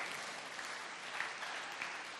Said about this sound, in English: Can we clap our hands for Jesus